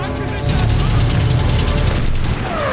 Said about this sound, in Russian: Выстрел из танкового орудия. Снаряд летит над головами бойцов.